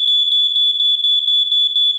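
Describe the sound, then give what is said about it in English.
Shrill, high-pitched electronic beeping from a smoke alarm, mentioned amid holiday fire-safety advice. The tone is loud and continuous, with a rapid, steady pulsing throughout and no other sounds. “Check your smoke alarms every month and make sure that they're working”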